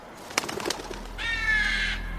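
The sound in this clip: A bird call, a pigeon or dove, heard outdoors near a bus stop: a few faint taps, then one drawn-out, steady, fairly high call lasting under a second. It is quiet.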